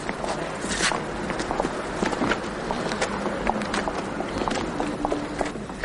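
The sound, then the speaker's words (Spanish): Hurried, limping footsteps of a man moving along a street: many quick steps over a constant, noisy background, fairly loud and without speech. “el comisario camina apresurado por la calle mostrando su cojera”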